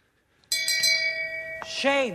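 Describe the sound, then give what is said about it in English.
A shame bell sound effect rings out, a bright, sustained metallic tone struck a few times in quick succession, its ringing carrying on until a brief voiced sound cuts in near the end. “Give me the shame bell, please.”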